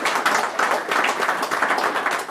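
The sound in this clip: A round of applause for the captain of the Republic of Ireland under-15 team: dense clapping with uneven, pulsing surges, fairly loud and continuous throughout.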